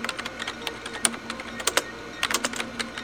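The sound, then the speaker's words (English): Typing on a computer keyboard: many quick, sharp key clicks in an irregular rhythm, with brief pauses between short bursts of strokes, and no voices. “Hurry. Type in Andromeda Radio Wave Study.”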